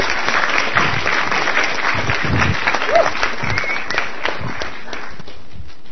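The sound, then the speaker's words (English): Audience applause welcomes a speaker to a morning adult session, a dense, steady stretch of clapping from a crowd that holds at an even level for several seconds. “Let's give him a hand and welcome him to share about the light of the world.”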